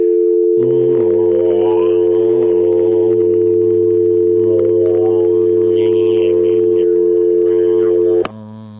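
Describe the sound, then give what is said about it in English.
A telephone dial tone hums as one steady, unbroken tone for nearly eight seconds, with fainter wavering sounds over it, then cuts off abruptly. “Could you send that dial tone down the line?”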